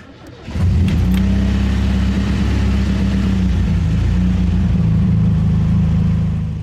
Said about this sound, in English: climb into the driver's seat, and drive off